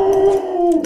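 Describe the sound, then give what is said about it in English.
A single dog gives a short, sustained, tonal howl that wavers slightly in pitch. It is loud and clear, with no talk over it. “But, I'm sorry, that's my dog.”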